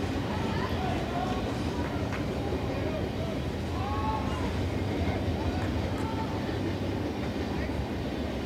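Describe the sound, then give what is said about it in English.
A train rolling by during a college baseball game, heard as a continuous, even rumble and rattle that holds steady throughout. “Every train continues to roll in the background.”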